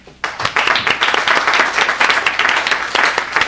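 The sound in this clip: Legislators in a state house chamber applaud a guest being welcomed. The clapping starts abruptly after a brief hush, then stays loud and dense with distinct individual claps popping through the steady roar.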